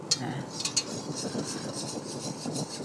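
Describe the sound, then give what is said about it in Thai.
Herbal balm ingredients, including camphor, borneol and menthol, are stirred until they melt into liquid, with faint repeated scraping and light clinks of a utensil against the container and a few sharper taps early on. “ตอนนี้เราคนจนละลายกลายเป็นของเหลวทั้งหมดแล้วนะคะ”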